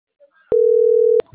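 A telephone line tone sounds while a call to operators is being dialed: one steady mid-pitched beep lasting under a second, with faint soft sounds before and after.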